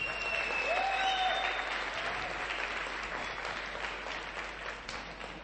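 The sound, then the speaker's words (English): Warm applause from a church gathering honours a couple who served in its ministry: dense, continuous clapping from many hands that eases slightly in volume toward the end. “I think let's put our hands together for Stephen and Shirley Gooch.”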